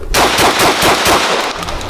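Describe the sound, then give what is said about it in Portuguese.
Rapid gunfire at a shooting range target: a fast, loud string of sharp shots fired in quick cadence, each crack blurring into the next over two seconds. “Aperta o botão para alimentar e coloca o quinta munição. Vamos lá tentar cadenciar naquele alvo ali. Pista, quente.”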